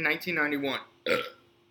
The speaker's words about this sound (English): It's the burps? Yeah. The burps?